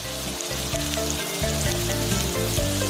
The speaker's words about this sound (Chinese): 葱切段，姜切块，洋葱切丝，这些准备都是为了熬出一碗极致的葱油汤。